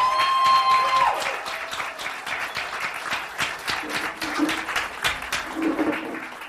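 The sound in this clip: Audience applause welcoming an author to a book reading: a dense, steady patter of many hands clapping on its own for several seconds, easing off slightly toward the end.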